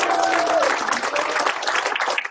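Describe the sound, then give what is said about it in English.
Convention audience applauding themselves for attending, a dense, loud crowd of clapping hands that holds steady and eases slightly toward the end. “So put your hands together and applaud yourselves for coming up.”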